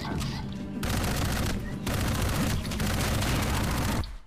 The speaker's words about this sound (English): he's got a laser gun and I've got like a machine gun. No fair.